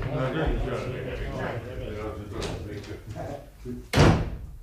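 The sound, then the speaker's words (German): Door slammed shut as people storm out of a district court in Lower Bavaria. Voices talk first, then a single loud, sharp slam near the end. “Sie polterten hinaus, schmissen die Türe zu”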